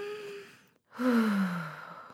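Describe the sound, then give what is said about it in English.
A deep cleansing breath is drawn in and then let out in a longer, louder sighing exhale, with a short pause between them. “Take a cleansing breath. You want to take one with me?”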